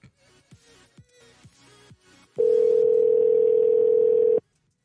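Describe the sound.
A telephone dial tone sounds after a disconnected call: a steady, loud, unwavering single tone holds for about two seconds, then cuts off abruptly.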